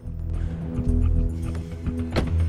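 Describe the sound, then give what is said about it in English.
A stolen car pulls into a back alley by restaurant dumpsters and parks, its engine giving a steady low rumble throughout, with a brief brighter noise near the end. “Jack pulls into a back alley where restaurant staff stand smoking by the dumpsters. He pulls over and parks the stolen vehicle.”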